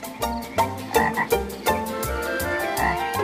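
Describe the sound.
An old frog croaks in a rapid, rhythmic series of loud, throaty croaks that run together into a continuous pulsing chorus, with no voices.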